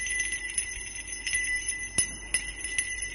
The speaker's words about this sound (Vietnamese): Tiếng chuông vang lên, leng ca leng keng.